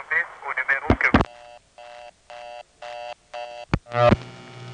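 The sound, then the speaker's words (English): Telephone reorder tone sounds after a long-distance call on a panel switching office is hung up: sharp clicks, then several evenly spaced bursts of a steady buzzy tone, followed by another click and a short burst of noise at the end. “every time you hang up a long-distance call on panel, you temporarily fall through the reorder. You can hear that as you monitor the phone line while you're hanging it up. You hear it temporarily go into the reorder and then drop to the idle state.”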